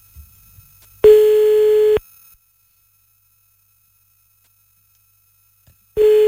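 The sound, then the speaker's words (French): Ringing tone of an outgoing telephone call: a steady, single-pitched tone lasts about a second, then a long silence follows, and the tone starts again at the very end. “Allez, on l'appelle, il s'appelle Gaëtan, c'est ça? Ouais. Très bien.”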